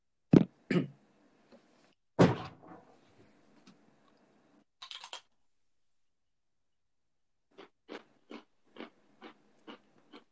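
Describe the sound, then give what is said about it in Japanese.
Someone eating something crisp and crunchy: a few louder crunching bites early on, then a quiet gap and a regular series of short, faint crunches. “なんか食ってるやついるな。なんか食ってるな。すぐバレるよ。食べてたら。なんかサクサクしたの食べてるな。”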